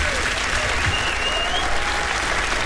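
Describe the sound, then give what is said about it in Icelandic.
Applause from a concert audience for a singer at a birthday tribute concert: a dense, continuous wash of clapping holding at an even level throughout, with a faint whistle rising briefly above it. “gefa honum gott klapp líka”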